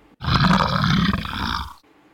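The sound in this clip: A hungry lion's roar: one loud, rough, drawn-out bellow lasting about a second and a half, heard alone with no talk.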